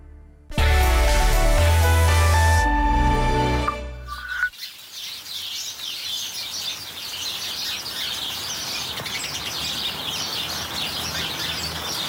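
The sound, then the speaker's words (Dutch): Many house sparrows chirping cheerfully in a small garden in grey, rainy weather, a dense, continuous twittering over a steady hiss, following a short burst of music at the start. “Annemieke Leegwater uit Hoorn heeft een heel klein tuintje met heel veel mussen. Die ondanks het grijze en regenachtige weer vrolijk kwetteren.”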